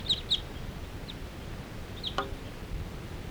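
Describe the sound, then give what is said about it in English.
A large flock of crossbills calling in the sky, heard as a few faint, short, high chip notes scattered over steady background hiss. “And there's a whole bunch of crossbills interacting in the sky here.”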